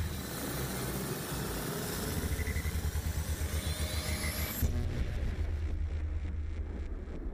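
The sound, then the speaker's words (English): A time machine travelling sound effect: a loud, steady mechanical rumble with a whooshing roar and a thin whine that climbs in pitch, then breaks into a rapid pulsing, throbbing drone for the last few seconds. “So we're now in the time machine, all strapped in and ready to go. Meg, are you ready to drive? Yeah, thumbs up. Cool. So I guess let's just pull the lever and see how far it takes us back.”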